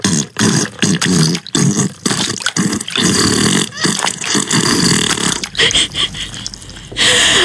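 An exaggerated fart sound effect, loud, long and raspy, sputtering on for several seconds with many brief breaks and wet, snorting textures.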